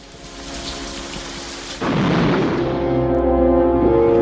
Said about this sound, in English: He looks over at Eugene, then up at the rain, and steps back under the cover next to the blind boy.